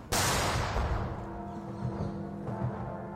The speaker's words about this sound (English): A field gun sounded and Big Ben tolled.